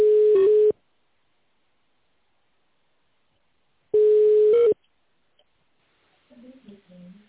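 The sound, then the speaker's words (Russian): Telephone line tones as a call connects: two long, steady beeps separated by several seconds of silence, followed by faint voices near the end. “Пожалуйста, оставайтесь на линии. Происходит соединение.”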